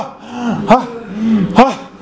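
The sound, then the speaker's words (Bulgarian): Loud, voiced breathing out during a guided breathing exercise: a sustained low, throaty exhale with two sharp, forceful bursts. “Дишай. Да се чува в стаята. Дишай. Дишай.”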